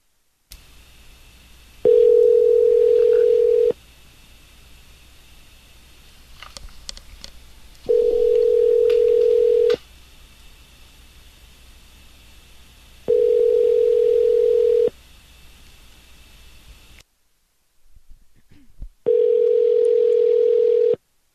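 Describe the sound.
Ringback tone of an unanswered telephone call during a prank call: four steady, mid-pitched buzzing bursts, each about two seconds long, separated by longer pauses over faint line hiss.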